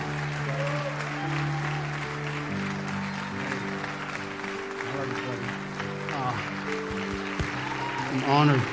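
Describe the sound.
Audience applause as a church audience welcomes a pastor to the stage, steady clapping throughout with sustained tonal sounds beneath it and a voice rising near the end.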